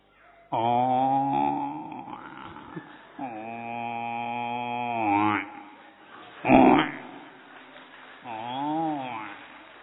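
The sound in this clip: A human voice imitates a buffalo with low, drawn-out, moaning bellows. There are a few long, loud, throaty calls, and one shorter, harsher burst in between.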